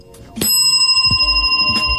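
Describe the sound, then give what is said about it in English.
A bell rings with bright, metallic strikes, a few sharp hits followed by sustained high ringing tones that hang on between them, fairly loud and with no talk over it. “Ring the bell.”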